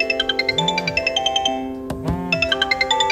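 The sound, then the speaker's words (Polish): A telephone rings with a rapid, evenly pulsing electronic trill in two bursts split by a brief pause, loud and steady. “Zadzwonił zaraz po 8:00 i Patryk natychmiast odebrał.”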